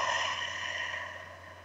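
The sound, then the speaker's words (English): A long, slow exhale out through the mouth, as if through a straw, makes a soft, steady rush of air that gradually fades. “And then breathe out through your mouth. Like through a straw. I'm going to keep breathing in that manner.”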